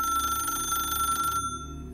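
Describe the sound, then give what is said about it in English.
A telephone rings in a home: one steady, bright electronic ring tone that holds for over a second and then cuts off abruptly, leaving near silence. “She almost jumped out of her skin when the phone rang.”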